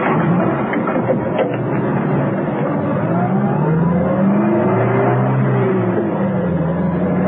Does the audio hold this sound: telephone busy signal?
no